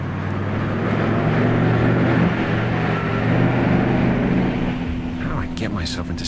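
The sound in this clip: A car engine drones as the car drives along a lonely, dark road. Its low, even hum and rumble continue steadily from start to finish.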